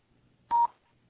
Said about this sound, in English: To leave a message, wait for the tone. When finished recording, press pound for more options. Otherwise, for assistance, press 0 now. Record at the tone.